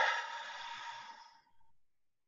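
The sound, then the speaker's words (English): A deep breath taken during a guided stress-relief breathing exercise: one long, airy exhale starts strong and fades out over about a second and a half, followed by a brief, soft breathy trail, alone and fairly quiet. “So let's breathe in and let it out.”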